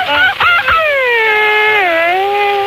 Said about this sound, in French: c'est le bruit du fantôme